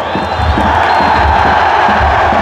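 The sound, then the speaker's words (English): Football crowd cheering at a match's final whistle, a loud, dense, continuous roar of many voices with scattered whoops and shouts that holds steady throughout. “The atmosphere. The cheer when the referee blows the final whistle. Yeah, here he goes.”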